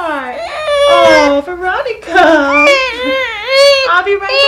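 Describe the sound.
A baby cries backstage near the green room of a symphony orchestra's concert hall, wailing in loud, wavering bursts while a woman speaks to her over the crying.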